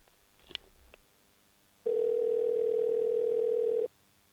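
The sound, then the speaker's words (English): A telephone dial tone sounds while a call is being placed: a steady, even hum lasting about two seconds, preceded by a few faint clicks. “Let me call Baker. 1 second.”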